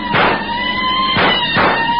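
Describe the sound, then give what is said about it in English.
Three police cars chase a fleeing car in an old radio-drama scene: sustained siren-like tones run throughout, with a few loud roaring engine surges rising over them. “One, two, three fast police cars try to close up the distance between them. Closer and closer they creep up on the car ahead.”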